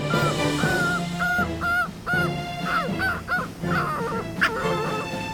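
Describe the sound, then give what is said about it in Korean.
A dog whimpering during house training, with many short, high, whiny cries in a rapid, uneven series, each call thin and tonal and rising or bending in pitch, alone with no talk. “이것 봐요. 낑낑대면서 반성하잖아요.”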